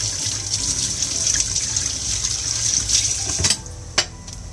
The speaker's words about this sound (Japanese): バイキンマンとドキンちゃんとホラーマンのお弁当包みがコーヒーまみれになりました今洗ってます